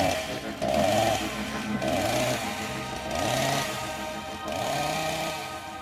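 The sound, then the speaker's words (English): A chainsaw sound effect revs in about four loud, buzzing bursts. Each burst rises in pitch and then drops back to a rougher idle between them. No voices are heard. “And then I say cheers and then it goes and then it's a chainsaw noise.”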